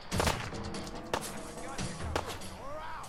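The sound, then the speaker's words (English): Gunshots ring out in a video game firefight against raiders, with three sharp, loud reports spaced about a second apart over a low rumbling background, and a voice faintly present. “I shot him in the chest, but it didn't reduce his”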